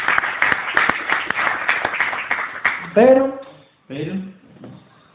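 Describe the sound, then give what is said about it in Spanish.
Applause for an award winner at a gala: many dense claps for about three seconds, then a voice speaking and the clapping fades out. “Pues el ganador ha sido al final la Red Nacional de Corresponsales. Le damos un aplauso, ¿no?”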